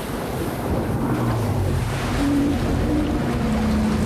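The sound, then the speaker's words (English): A boat travelling across water, heard as a continuous wash of waves and wind with a low droning hum underneath, steady and loud throughout with no voices. “A boat? It travels on water, if that's what you mean.”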